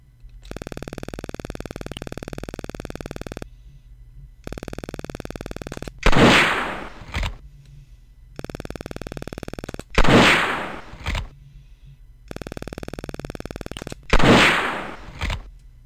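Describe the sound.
Gunshots fired at a shaving-cream can target: three loud, sharp blasts spaced several seconds apart, each followed by a shorter crack, separated by long steady tones.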